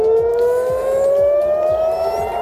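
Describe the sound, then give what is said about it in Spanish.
Air raid sirens sounding in Jerusalem and Tel Aviv hold a loud, steady, unbroken tone that slowly rises in pitch throughout, with no voices. “Y este es el sonido de las sirenas que hace unos minutos se han escuchado en Jerusalén y en Tel Aviv.”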